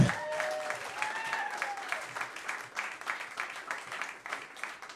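Audience applause at a comedy show as a comedian is called up: dense, lively clapping with a few whoops near the start, holding steady and then tapering off.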